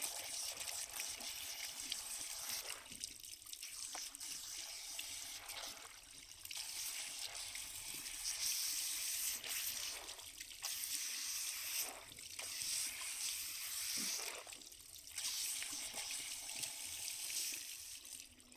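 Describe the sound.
Hot water runs from a shower head during a hair wash, a steady, full hiss with brief surges and splashes as the flow is moved about. No one speaks.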